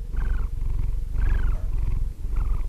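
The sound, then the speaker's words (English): A sleeping cat purrs with a low, rumbling vibration that swells in three rhythmic breathing cycles, each with a slightly brighter rasp on top, steady and fairly soft throughout. “This is the sound of my cat, Sammy, sleeping.”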